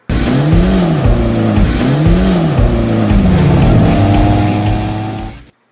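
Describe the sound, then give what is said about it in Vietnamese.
Engine noise from a convoy of cars driving along the roads of Vientiane, loud and continuous. Engine pitch rises and falls in repeated surges, like revving, before the sound ends abruptly. “Đoàn xe bon bon chạy trên những con đường của thủ đô Vạn Tượng”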